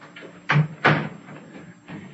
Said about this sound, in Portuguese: por favor, feche a porta, sim?